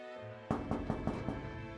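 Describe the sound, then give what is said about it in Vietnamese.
Knocking on a room door: five quick, faint raps in a fairly even rhythm, following a low steady hum. “Tiếng gõ cửa phòng vang lên, Mạnh nói”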